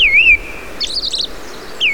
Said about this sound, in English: The American robin is the best known of the thrushes. Its song is the familiar cheer-up, cheerio.